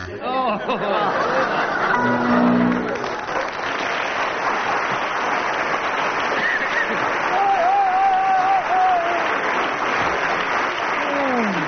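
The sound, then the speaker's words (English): Audience applause fills the whole stretch, loud and sustained, with chatter and scattered laughter mixed through it. “Well, if audience response is anything to go by, Graham and Barry, you've won.”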